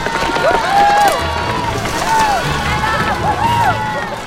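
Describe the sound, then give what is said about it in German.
Children running and shouting as a whole crowd of them pushes a girl in a wheelchair down a street, chasing after her. High voices call out in rising and falling cries over a steady low rumble of rolling and footfalls. “Margarete saust im Rollstuhl eine Straße runter. Und eine ganze Horde von Kindern schiebt sie an und läuft ihr hinterher.”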